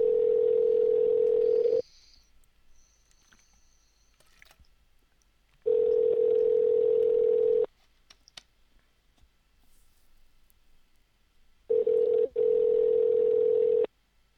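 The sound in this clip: Telephone ringing tone on a call: three long, steady buzzing tones, each lasting about two seconds, separated by several seconds of near silence with only faint clicks.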